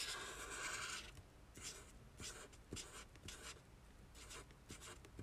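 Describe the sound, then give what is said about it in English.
Pen strokes scratch across paper as strawberry seeds are drawn, a run of many short, quick, dry scribbling marks with small gaps between them, heard alone at a soft, close level after a brief louder rustle at the start. “Drawing the seeds.”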